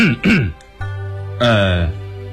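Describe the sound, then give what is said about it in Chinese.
A dry cough and throat clearing: two short, rough voiced bursts, then a longer, low, drawn-out vocal rumble. “高士奇干咳了一声，小心说：”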